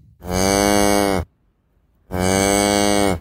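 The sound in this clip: A cow and calf mooing: two long, loud, steady moos, each about a second long, separated by a short silence.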